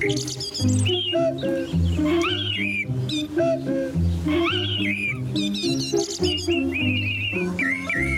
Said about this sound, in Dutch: daar komen ze, de vogels.